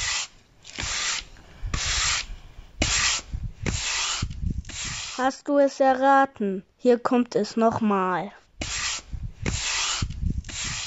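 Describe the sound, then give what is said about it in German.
A broom sweeps a yard in a run of regular, scratchy strokes. A child's voice speaks briefly in a pause, and then the sweeping strokes start again. “Richtig, das war meine Mama, die den Hof kehrt.”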